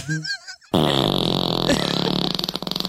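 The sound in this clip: A fart lets out one long, loud buzzing rip that holds steady for about two seconds, then breaks into quick sputtering pulses at the end.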